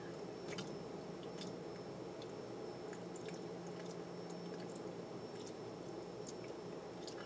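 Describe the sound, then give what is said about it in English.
Faint wet squishing and soft clicking of fingers sliding inside a vagina, a steady run of many small moist smacks over low background hiss, with no voices. “I'm really wet for you, baby. Watch me slide my fingers inside my pussy.”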